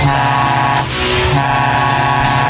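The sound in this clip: Car engine trying to start, a loud, continuous droning engine noise with a brief dip near the middle.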